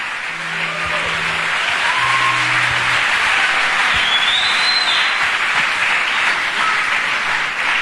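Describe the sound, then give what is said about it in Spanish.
A church audience applauds, a loud, dense and steady wash of clapping that holds without pause, with a few faint tonal sounds mixed in. “Si va a aplaudir, hágalo bien.”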